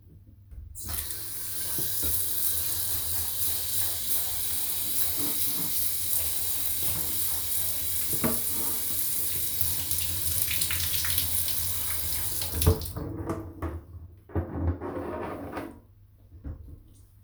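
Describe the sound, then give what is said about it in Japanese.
Tap water runs in a steady, full gush while someone seated on a chair is washed, then cuts off abruptly, leaving a few soft knocks and drips. “お姉ちゃんが洗ってあげる。冷たかったら言ってね。”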